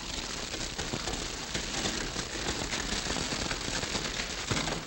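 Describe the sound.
Crackling of a large fire set to block a pursuing posse, a dense, continuous hiss and crackle that stays steady and fairly loud throughout.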